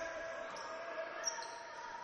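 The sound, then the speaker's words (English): A loose basketball bounces on the court floor during a college game, a dull thud standing briefly out of the steady crowd noise in the arena. “A ball loose on the floor. Newman tried to protect it. And they do end up with the basketballs. It was kind of being pinball around.”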